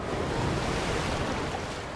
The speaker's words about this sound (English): The stream rushes rocks.